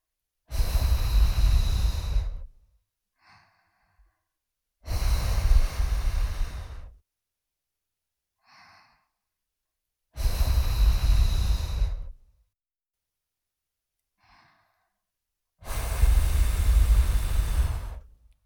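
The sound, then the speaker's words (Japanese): Breath blown to clear leftover dirt during ASMR ear cleaning: four long, soft, breathy blows, each lasting about two seconds and separated by pauses that hold only a few faint small sounds. “では息で残った汚れを吹き飛ばしていきます。少しくすぐったいかもしれませんが、我慢してください。”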